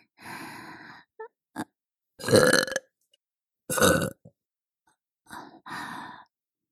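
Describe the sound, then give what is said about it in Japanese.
A woman burping in a series of drawn-out, gurgling belches of varying length, with a few short bursts and quiet pauses between them. “ママのゲップ、甘くて臭くていい匂い？”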